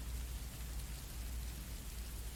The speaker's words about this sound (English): Oh, are you really considering the rain to be a sign?